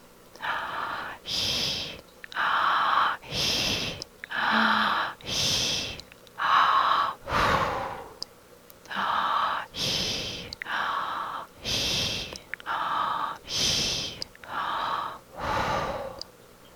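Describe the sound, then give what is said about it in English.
Patterned mouth breathing during a labour contraction: three short 'hee' breaths followed by one longer 'hoo' breath, repeated many times as forceful, rhythmic, breathy bursts separated by brief gaps. “As the contraction builds up, switch to a patterned mouth breathing with 3 ahis and 1 ahu. It may sound something like this.”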